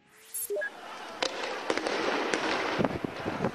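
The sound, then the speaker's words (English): Sharp bangs and pops as riot police clear Bahrain's main square of sleeping protesters overnight with rubber bullets and tear gas: several loud reports cut through a dense, continuous wash of noise. “That's the sound of riot police moving into Bahrain's main square overnight, taking the thousands of sleeping protesters there by surprise.”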